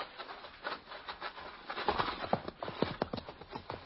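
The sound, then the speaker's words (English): Hooves of an approaching horseman clip-clop in a steady series of sharp knocks that grow louder through the second half, over a low background hiss. “How close? I don't know. There. Look, a horseman.”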